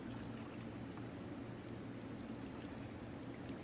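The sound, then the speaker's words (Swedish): Babbling water in a narrow, cramped space, a soft, continuous bubbling wash with an even, low-level texture throughout and no other sounds standing out. “du hör att eh, det här porlande ljudet det kommer lite grann ifrån vänster sådär.”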